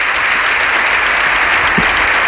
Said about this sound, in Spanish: Toda la cámara de pie aplaude al completo